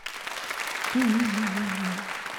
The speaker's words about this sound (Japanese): 拍手で答えてください。